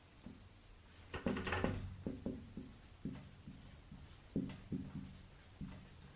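Faint scratching of a pen writing something down by hand comes in a few short bursts of strokes, with quiet pauses between them.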